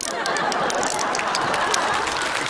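Audience applause during a live stage performance, a dense, continuous wash of clapping without clear gaps, holding at an even, fairly loud level throughout.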